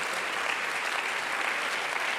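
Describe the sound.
Church audience clapping hands during a service, a dense, even, steady wash of applause with no breaks throughout.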